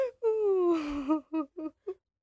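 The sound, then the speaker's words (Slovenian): Crying in a dramatic scene: a long wailing cry that slowly falls in pitch, followed by three short sobbing bursts, loud and without other sounds. “Zakaj se jokajo? Kaj jim je?”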